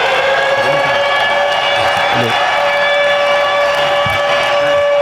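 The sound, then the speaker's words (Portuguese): A siren sounds loud and unbroken on a steady, high tone that holds level for the whole stretch, with faint low sounds beneath it. “Vai ter uma sirene.”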